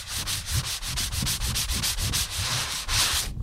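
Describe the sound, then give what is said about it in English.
Rhythmic rasping of sandpaper rubbed over animal skin parchment after shaving, many even back-and-forth strokes in a steady brisk rhythm, loud and dry, with no talking. “to sand the skin surface after the shaving process because the surface of the skin now is pretty rough. I want to try to smooth it down as much as possible”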